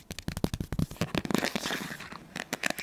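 Playing cards are handled, counted and flicked in a slow ASMR-style session, giving many quick, crisp snaps and papery clicks, dense and rapid at first, then sparser and softer, with no talking.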